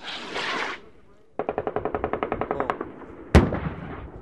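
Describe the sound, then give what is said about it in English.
Machine gun fire during a military assault exercise: a rapid, evenly spaced string of sharp shots rattles out, then a single louder blast follows. A voice is heard briefly before the firing. “As you can see along the berm there, support by fire position is in place. So they have their machine guns.”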